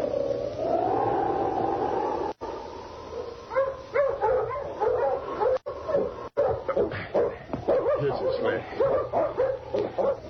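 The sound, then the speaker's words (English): A hound barks repeatedly outdoors, with many sharp, loud barks and yelps in quick, irregular bursts, some with whining, whimpering tones. “Shut up, you noisy hound.”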